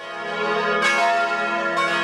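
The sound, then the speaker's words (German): A wedding bell rings with a sustained metallic hum, and two fresh strokes swell in over the steady ringing. “die Hochzeitsglocke, die hier läutet”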